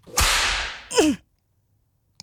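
A single whip lash against a person: one sharp, hissing crack that sustains for about half a second, followed by a brief sliding swish and, after a pause, a faint tick.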